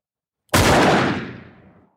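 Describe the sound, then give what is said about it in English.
A single gunshot fired into the ceiling of a gym where wrestlers are training: a sharp, loud crack after a short silence, followed by a long, rumbling tail that fades out over more than a second. “And he shoots the gun into the ceiling.”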